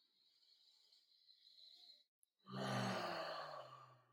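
Deep breath taken slowly and deliberately: a long, faint, airy inhale, a short pause, then a louder, fuller breathy exhale.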